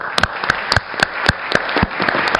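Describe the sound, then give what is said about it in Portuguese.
Applause from the audience at a public event, with sharp claps landing in a steady, quick rhythm over a dense wash of sound for the whole stretch. “Pedir uma salva de palmas a ele.”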